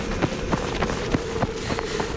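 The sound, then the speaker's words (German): Quick footfalls of people running away on foot, an even run of about seven beats over a steady low hum, with no talking. “Wenn ich jetzt sage, rennst du los.”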